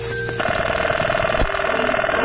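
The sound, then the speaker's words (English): A 1970s telephone ringing with a rapid, steady electronic trill, a warbling mid-pitched tone that starts shortly after the opening and continues to the end over a dense, noisy background. “Here's a collection of telephone sounds of the 1970s.”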